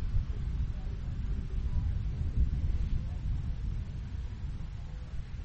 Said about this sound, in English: Wind part starting to pick up a little bit, as you can probably hear in my microphone.